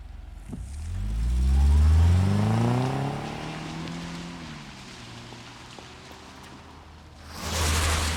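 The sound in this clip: A car engine revs and the car drives off. The whining harmonics climb, then sink and settle into a steady lower hum, and a louder rush of noise returns near the end.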